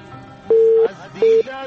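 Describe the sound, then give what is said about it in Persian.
Telephone busy tone after a call-in line is disconnected: two steady, low-pitched beeps, the first longer than the second, over a faint background hum. “تماس کشمن جان قطع شد”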